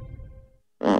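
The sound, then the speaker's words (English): Fart-like sound of a butt being worked clean off: one short, loud, raspy burst that comes abruptly after a low, fading tone and a moment of near silence. “That's the sound of a butt being worked clean off.”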